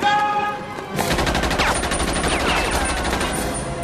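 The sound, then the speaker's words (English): Rapid gunfire rings out, a burst of many sharp shots fired in quick succession, loud and sustained after a slightly quieter opening second, with no voices heard. “He hit him. That wasn't so much of a warning shot.”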